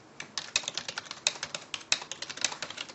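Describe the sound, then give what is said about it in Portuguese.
A pen scratching out a book title by hand during a lecture, a quick run of many short, crisp strokes and taps with uneven rhythm, heard alone without talk. “Vou escrever aqui para vocês, que é Thérèse. Em francês, deixa eu escrever o nome aqui desse livro aqui, ó.”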